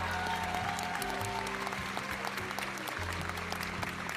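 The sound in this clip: Audience applause with steady clapping across the few seconds, over a sustained tonal hum.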